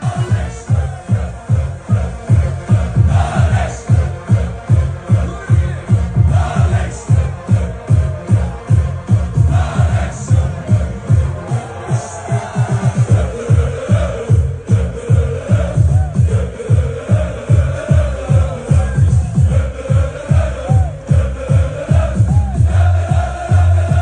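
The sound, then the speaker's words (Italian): Thousands of orange-clad Dutch football fans chant in a street in Hamburg before a match against Poland, a loud, steady rhythmic pulse of voices and beats repeating at a brisk pace throughout. “E con il coro dei tifosi olandesi in sottofondo vi lasciamo”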